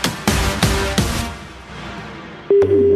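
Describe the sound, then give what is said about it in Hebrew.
A telephone line tone from a call ringing out cuts in near the end, steady and loud, after a few fading percussive hits. “הטלפון מגיע עכשיו למישהו או מישהי, אני לא יודע למי התקשרה.”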